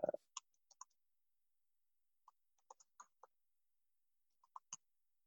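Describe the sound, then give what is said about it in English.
Keys clicking on a computer keyboard as a link is typed: sparse, faint keystrokes in a few short clusters separated by quiet pauses. “Here, let me just type this in real quick.”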